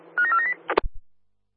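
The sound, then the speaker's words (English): Telephone being dialled: a quick run of keypad beeps at shifting pitches, followed by a few short clicks and soft thumps, then silence. “give us a call. Dialing.”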